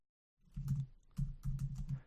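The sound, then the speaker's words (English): Typing on a computer keyboard: a few soft, quick key presses fall in two short runs, faint and without talk. “See if we can get this real quick. Little Richard. Just type it in. Little Richard.”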